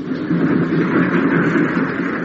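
A train running along a railway line: a steady, dense rumble with no clear breaks, holding an even level throughout.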